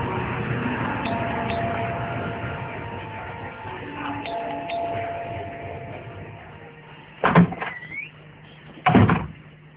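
A door opened after a doorbell ring: two short, sharp clunks near the end, separated by a brief pause, over a steady low background hum.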